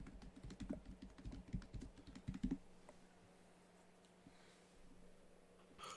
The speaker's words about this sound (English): And then you want to type schematic. Schematic. And then after that, write Helm of the Host serialized.